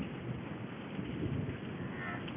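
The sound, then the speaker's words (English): Steady rain falling, heard as a dense, continuous hiss with a low rumble beneath it, unbroken and even in loudness throughout. “What can we do? It's raining.”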